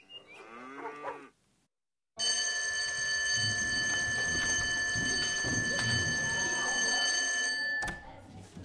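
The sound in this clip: A loud electric bell rings continuously and steadily for about five seconds, coming in after a brief voice and a pause, then cutting off near the end.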